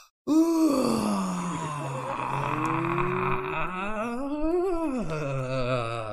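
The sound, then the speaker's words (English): A whale-song sound effect: a long, low, groaning moan whose pitch sweeps slowly, swelling upward and then dropping near the end. It continues unbroken for several seconds with no other sound. “Paul, you're just playing sound effects. That's what I couldn't figure out what was happening. I'm like, that's a great whale impersonation that Paul has mastered there.”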